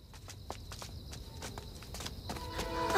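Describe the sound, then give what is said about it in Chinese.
Footsteps of a steward and two servants walking in, a series of soft, irregular treads that gradually grow a little louder toward the end. “这时一个管家带着两个家奴走了进来。”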